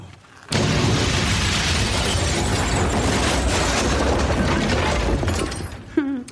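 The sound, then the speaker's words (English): A house collapses with a boom: a loud, sustained crashing roar of breaking and rumbling holds steady for about five seconds, then tapers off, ending in a brief faint sound. “The house fell down and went boom.”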